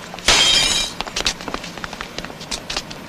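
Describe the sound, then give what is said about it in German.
A football smashes a window pane on a street: a loud, sudden crash of breaking glass bursts out and fades within a second. Lighter scattered clatter and tinkling follow. “So, und schon eine Scheibe kaputt. Das habe ich ja kommen sehen. Fußball spielen mitten auf der Straße.”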